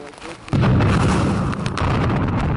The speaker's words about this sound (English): It's a big blast.